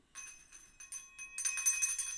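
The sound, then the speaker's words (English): A small, poor-quality hand bell rung several times, thin high metallic tones in quick separate bursts that build into a louder, continuous jangling ring. “Can I get a better bell? No, you can earn it. But this one's so bad. No. That's your starter bell.”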